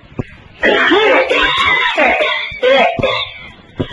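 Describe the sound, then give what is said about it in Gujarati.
A man imitates an old man's coughing in a cinema with loud, rasping, strained vocal bursts. Short breaks separate a few bursts, and no other sounds are heard. “TB થઈ ગયો, એમ ઉધરસ ખાયો.”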